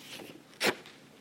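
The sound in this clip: A single quick rip as a paper commitment card is torn off along its edge at a church service: one brief, faint tearing burst alone against quiet background hiss.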